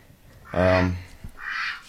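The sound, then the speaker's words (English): A duck quacks in a studio: two loud, nasal calls, the first longer and buzzing, the second shorter and breathier, with a brief pause between them. “Yeah, he has a lot to say, this duck. We have a duck in the studio!”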